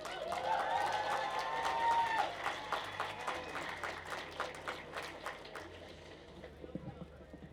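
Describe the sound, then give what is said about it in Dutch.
A crowd at a demonstration against racism and fascism in the Netherlands applauds. The clapping is quiet and scattered, then thins out and fades toward the end. “Daarvoor een applaus voor Rocher.”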